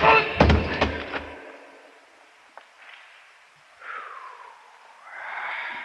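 A rock almost as big as a baseball, weighing over half a pound, is thrown and strikes a man's head, giving a few dull, heavy thuds at the start, followed by near quiet with faint rustling.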